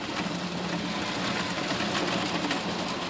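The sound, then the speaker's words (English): Steady mechanical rattle and whir of a walnut cracking machine processing nuts in a shelling shed, a dense, continuous clatter that holds an even loudness throughout with no pauses. “We go into a shelling shed where her walnuts go through several rounds in a cracking machine.”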